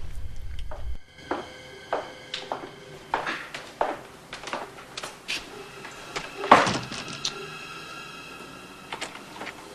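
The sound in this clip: Someone tries to open a door to a jeweler's office off a corridor, producing a quiet series of sharp clicks and knocks at irregular intervals, with one louder thud near the middle.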